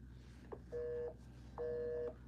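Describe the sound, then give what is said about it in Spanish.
Ringing tone of a telephone call being placed: two short, steady tones in quick succession, faint above a low background hum. “Está llamando. Bueno, ahorita le vuelvo a, marcar.”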